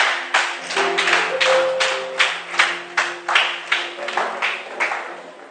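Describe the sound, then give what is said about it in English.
An audience claps in a steady, even rhythm, many sharp hand claps in a row over sustained tones. “Stand to your feet. Clap your hands.”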